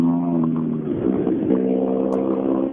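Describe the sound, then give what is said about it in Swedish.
Rally car engines revving as the cars pass on a special stage: a loud, steady engine drone with a strong harmonic whine that briefly dips midway before the roar returns. “men nu, nu kommer det bilar eh, hela tiden va? Ja, det gör det.”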